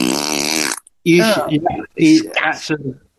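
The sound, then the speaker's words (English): A voice imitates a long fart with a buzzing, wavering raspberry, then people talk. “and then he writes underneath, 25-second fart, that was. It stinks, Christ.”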